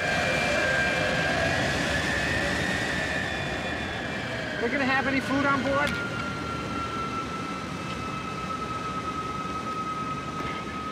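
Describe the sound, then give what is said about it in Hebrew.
A jet aircraft flies by with a broad, steady roar. A whining tone in the roar slowly drops in pitch as the sound holds at a moderate level. “Well, there's your jet.”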